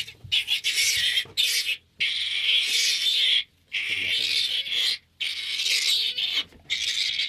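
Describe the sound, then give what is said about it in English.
Piglets squabble over a sow's teat on a free-range pig farm, giving harsh, rasping squeals in repeated bursts broken by short pauses. “A couple of piglets are fighting over a teat.”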